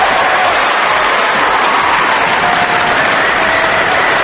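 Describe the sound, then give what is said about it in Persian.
Loud, dense audience applause for a man, an unbroken roar of many clapping hands that holds steady from start to finish. “اول از همه اون دست قشنگه رو بزن برای آقای با هنر. بزن دست قشنگه رو، بزن آقا، بزن.”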